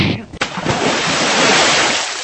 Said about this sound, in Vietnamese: Chỉ nghe một tiếng ầm, Hắc Hùng Quái ngã rơi xuống suối.